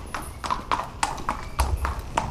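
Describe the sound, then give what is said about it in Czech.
Hooves of two racehorses clip-clop as they walk from a training horse walker back to the stables, a steady, even walking rhythm of sharp knocks with no talk. “Koně High in the Sky a Godfrey míří od tréninkového kolotoče do stájí.”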